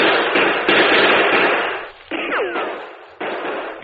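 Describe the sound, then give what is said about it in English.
Gunshots are returned in a radio drama shootout: a few abrupt, sharp bangs each kick off a dense, noisy burst that lingers and fades before the next shot. “We'll return the fire.”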